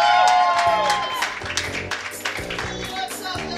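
Applause from a comedy show audience welcoming the evening's hosts: dense clapping with cheering that is loudest at the start, then thins into scattered claps, with a pulsing low thump running underneath.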